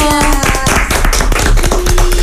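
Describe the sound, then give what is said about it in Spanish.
Hands clap in applause for a school of art and culture, a loud run of many sharp, close-set claps. A sustained tone sounds briefly at the start. “¡Aplausos!”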